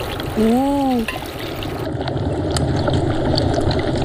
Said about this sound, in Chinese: 翻炒一下，开始加水。 一下子都倒进去。